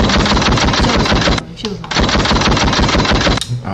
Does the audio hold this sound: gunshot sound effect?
yes

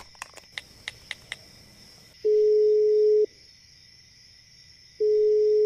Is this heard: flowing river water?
no

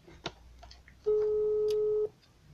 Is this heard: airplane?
no

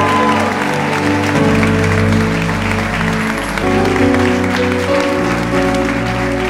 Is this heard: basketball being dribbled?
no

